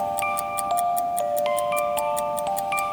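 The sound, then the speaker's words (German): Steady, evenly spaced crisp ticks from a pendulum clock continue throughout, over a faint sustained metallic ringing. “Tack, tack, tack, tack, tack, tack, tack, tack. Am Abend ist es stillgestanden. Die Uhr läuft, aber das Pendel plampert nicht. Am Morgen hat es plampert.”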